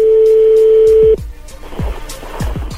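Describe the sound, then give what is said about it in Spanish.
A telephone number being dialed again for a repeat call: a steady tone holds for about a second, then cuts off, and a run of short clicks and taps follows. “Márcale otra vez.”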